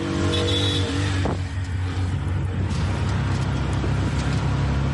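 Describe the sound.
A Bajaj auto-rickshaw motor taxi engine rumbles on the streets of Mogadishu, Somalia. The drone is loud and continuous, with a brief higher whine at the start and a shift in tone after about a second.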